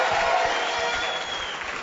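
A church audience clapping in praise during a worship service: a fairly faint, even patter of many hands that runs without a break.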